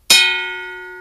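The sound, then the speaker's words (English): A hammer strikes an anvil once to give a bell note. The loud, bright clang rings on as a sustained metallic tone that slowly decays. “Here, I'll sing it for you. I'll just hit this anvil here and get a bell note.”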